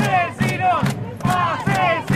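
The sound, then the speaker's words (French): Several thousand people gathered at a street corner in northern Rosario at nightfall chant loudly in unison, their voices pulsing in a regular, repeating rhythm. “Jeudi 26 octobre, alors que la nuit tombe sur Rosario, plusieurs milliers de personnes sont rassemblées à l'angle des avenues Juan de Rusto et Alverdi, dans le nord de la ville.”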